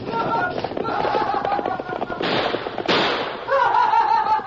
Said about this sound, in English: Gee, shot at us.